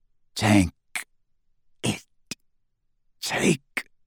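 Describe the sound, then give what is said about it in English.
Rasping, gurgling throat noises of a dying man, voiced by a person: three harsh, loud bursts, each followed by a shorter choking catch, separated by silence. “A terrible rasping, gurgling noise issued from Snape's throat.”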